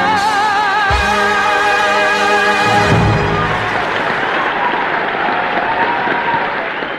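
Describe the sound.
An audience gives a standing ovation after a stage musical number. Sustained sung notes with vibrato give way to loud, dense, continuous clapping that holds steady and eases slightly toward the end.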